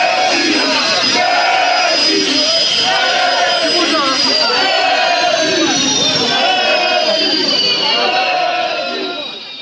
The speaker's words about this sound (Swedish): Ja, det där var alltså PSG-fans och det man hörde i bakgrunden, det var ljudet av flygmotorer till det här skanderandet om Messi.